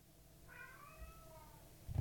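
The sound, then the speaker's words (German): A domestic cat meows once in a drawn-out, tonal cry. The meow is fairly faint over a low background hum. “Du kannst da nicht raus, bist eine Katze.”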